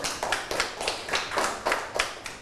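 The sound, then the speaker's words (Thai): Students clapping for themselves after cleaning up an area, an even, rhythmic run of claps at a brisk steady beat, moderately loud, with no talk over it. “อปรบมือให้ตนเองอีกครั้ง”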